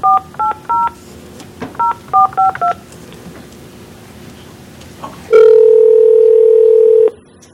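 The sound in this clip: Telephone keypad tones as a remote participant is dialed into a public meeting: seven short two-note beeps, three then four, followed by a pause and a long, steady, loud tone lasting nearly two seconds.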